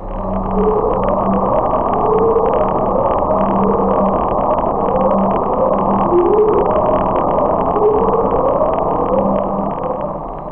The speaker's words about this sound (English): Upsweep is a sound identified in 1991 and has been present seasonally ever since.